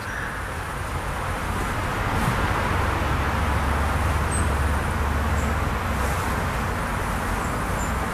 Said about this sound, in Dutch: De auto's rijden langs heel de parkeerplaats. Ja, daar gingen ze. Ja, dat komt door die auto.